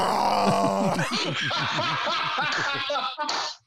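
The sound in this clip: A voice imitating snoring: a drawn-out, rasping vocal rattle of rapid pulses that stutters along for a few seconds, then breaks off abruptly.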